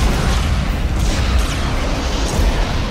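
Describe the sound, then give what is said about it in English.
Weapons fire and explosions from a Babylon 5 space battle between Earth forces and the White Star fleet roar as a dense, continuous wall of booming blasts and rumbling bursts, loud throughout. “Open fire. Hall starts the attack. Engage any hostile target. Fire at will. I repeat, fire at will.”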